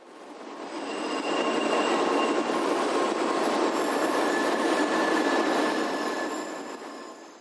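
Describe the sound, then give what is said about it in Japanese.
A Shinkansen bullet train runs on its way to Kyoto with a broad, rushing roar that swells up and fades away over about seven seconds. Thin, high squealing tones sit over the noise, and no voices are heard. “新幹線はどうでしたか？ とても早かったです。”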